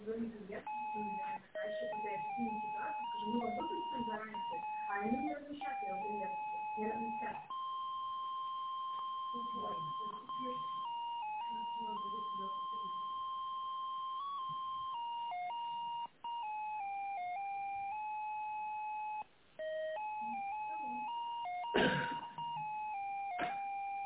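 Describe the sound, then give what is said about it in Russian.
A telephone hold melody plays while a call is transferred to a company department. The narrow-band electronic tune of sustained beeping notes steps up and down, with talk over the opening seconds. “Сейчас соединю вас с отделом.”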